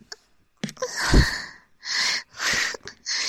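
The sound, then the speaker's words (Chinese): Heavy panting breath blown against a skirt: a few rough, breathy bursts of air, with a long one followed by three shorter heaves in a loose rhythm. The bursts are fairly loud and there is no talk. “你能不能不要趴在这儿对着我的裙子喘气啊”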